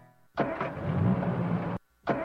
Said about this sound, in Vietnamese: Xe bị gì vậy cô? Dạ, xe em đang bị hư cái gì không biết nữa.